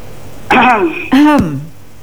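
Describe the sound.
A caller coughs over a telephone line, two short, harsh, voiced bursts about half a second apart that sound like throat clearing.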